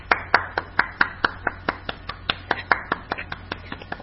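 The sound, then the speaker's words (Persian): Children clapping for themselves, a long run of many sharp, evenly spaced claps in a steady rhythm. “عالی بودید بچه ها، لطفا خودتون تشویق کنید.”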